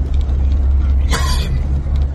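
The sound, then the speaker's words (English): Highway traffic rumbles as vehicles head north out of the Galveston and Houston area, a steady, loud low drone with one brief, louder burst of noise midway. “Traffic slowed down a little bit. A lot of these vehicles around me are a part of the exodus. A lot of people are leaving the Galveston, Houston area. They're going north.”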